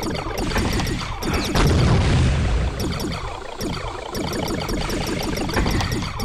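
Booming weapon effects from a space shooter video game as missiles and lasers are fired, many rapid repeated bursts in a continuous loud barrage that swells heavier partway through.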